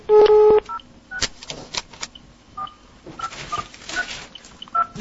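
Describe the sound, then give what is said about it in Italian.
Telephone keypad tones as a number is dialed: a quick, loud burst of beeping tones at the start, followed by quieter clicks and scattered short tones on the line. “Vediamo se c'è qualcuno che risponde a questo numero.”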